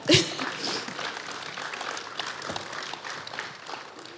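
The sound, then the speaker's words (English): An audience applauds with steady, fairly faint clapping that lasts the whole clip. A slightly louder burst comes at the very start, then the applause stays even. “Oh, you can clap for that, yeah.”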